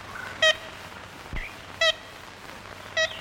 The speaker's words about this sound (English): listen carefully to this scratchy recording made in Louisiana in the 1930s.